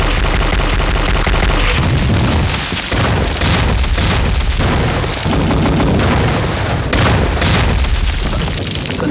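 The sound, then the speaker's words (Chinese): An artillery bombardment pounds a small area with shells exploding, many heavy booms rolling into one another in a loud, unbroken barrage. “命令，炮击，开始。”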